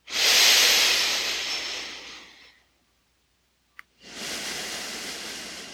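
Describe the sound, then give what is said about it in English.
Deep inhaling during a guided meditation: a long, loud, hissing in-breath that gradually tapers, then silence broken by a tiny click, then another sustained breathy rush. “We're going to breathe down. So inhaling. Scooping down into the earth.”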